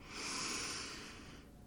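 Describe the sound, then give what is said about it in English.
A single long, deep breath drawn in, heard as a soft, airy hiss that swells quickly and then tapers off after about a second and a half. It is quiet and alone, with no talk. “Take a big, deep breath in again for Mommy.”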